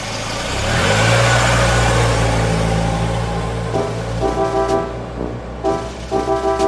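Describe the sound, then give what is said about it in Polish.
A vehicle engine rumbles and revs as it moves slowly over uneven gravel inside a cave, its growl echoing off the walls; an early loud swell gives way to choppier, pulsing rumbles. “Wolno ruszyli po nierównej żwirowej powierzchni, a warkot silnika odbijał się echem od ścian i sklepienia jaskini.”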